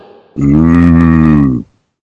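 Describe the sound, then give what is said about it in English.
A person imitates a cow's moo with one loud, sustained, low droning voice that holds a steady pitch for over a second before stopping abruptly into silence. “Oh, you sounded like a cow then.”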